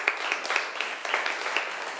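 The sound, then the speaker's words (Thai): Applause for two students in a class: a steady patter of many hands clapping, fairly quiet, running the whole time without pause. “ขอบคุณค่ะปรบมือให้เพื่อนทั้งสองหน่อยค่ะ”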